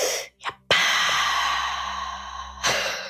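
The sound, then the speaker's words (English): A person takes a deep breath, heard alone as one long, airy rush of air lasting nearly two seconds, with a brief, softer breath just before it and another short breath at the end. “That's me taking a breath.”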